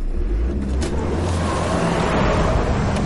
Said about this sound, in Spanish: El conductor vuelve al camión y retrocede. Frena y acelera hacia el coche de Son.